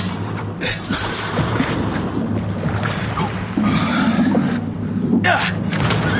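Oars row a boat heading toward Brittany, with a few sharp water splashes over a steady wash of sloshing water and low rumble.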